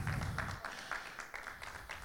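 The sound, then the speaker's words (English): Congregation clapping hands at a church service, a fairly regular series of claps at a moderate level, with a brief voice at the start. “Let's clap our hands for the online viewers.”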